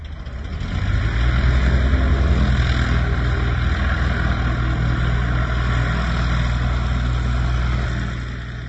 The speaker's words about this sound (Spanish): El avión L-200 Morava transportaba en su época a ministros, pero también servía como correo militar o aeronave sanitaria.